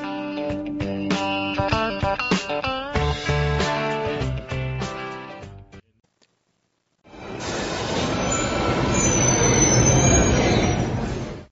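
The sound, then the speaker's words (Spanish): Metro train at a station: loud, sustained metallic squealing of wheels with bright ringing tones, then a brief moment of silence before a broad, steady rushing roar from the moving train. “Parada Metro Xelotzingo.”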